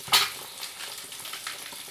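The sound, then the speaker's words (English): Nuremberg bratwurst, already cooked, frying in a pan to brown: a steady, bright sizzle with a sharper crackle near the start and small pops scattered through. “So the bratwurstel from Nuremberg are already cooked, so they only need to be to get a little bit brown.”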